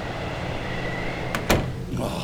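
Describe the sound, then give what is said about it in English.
A door is opened into a strong storm wind, giving a couple of sharp clicks over a constant, rushing background of blowing air. “opened the door, and the wind blew him right in”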